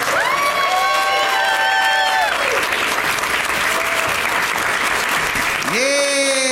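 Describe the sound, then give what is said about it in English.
Audience applause and cheering as guests are welcomed onstage at a live show in San Antonio; dense, continuous clapping with shouting voices and whistle-like cries, loud throughout. “They're really making you applaud for a long time”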